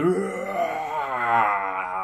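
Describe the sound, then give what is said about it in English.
A dragon's final wail of fear and pain, used as a story sound effect: a sustained, loud, harmonic moaning cry that climbs at first and then wavers, unbroken for the whole clip. “wail, as it was mere feet away from Margaret. But this time it sounded different, not a roar of anger, but one of fear and pain.”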